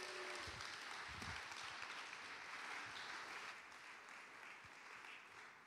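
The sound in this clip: Audience applause welcoming a speaker as she comes up to speak: faint, dense clapping that holds steady, then gradually thins and fades toward the end.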